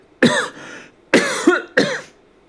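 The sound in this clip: Harsh throat-clearing coughs from one person at the close of an evening interview, a few rough bursts with a short pause between each, loud and alone.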